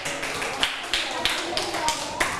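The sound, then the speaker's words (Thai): Rhythmic clapping from students applauding a classmate in a classroom: about six sharp, evenly spaced claps over steady background noise, with voices present. “เอาละค่ะปรบมือให้กับเพื่อนด้วยค่ะ”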